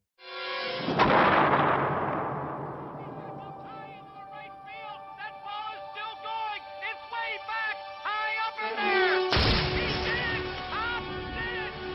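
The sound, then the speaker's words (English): A baseball smashes into stadium lights in a film scene. A loud crash bursts out at the start and slowly decays into sustained ringing tones, and a second sharp burst comes near the end. “That ball's gone right into the stadium lights as Robert Redford rounds the bases in the natural.”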